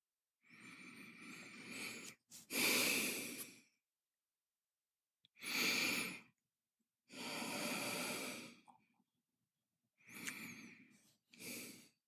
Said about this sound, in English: Take three more deep breaths, bringing your attention back to your heart and center.